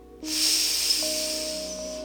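A deep breath is drawn in during a guided breathing exercise before a workout: after a short pause, one long, steady, airy inhale hisses on for almost two seconds over soft sustained tones.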